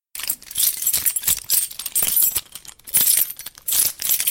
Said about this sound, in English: The sound you just heard was the recording of someone rattling some keys.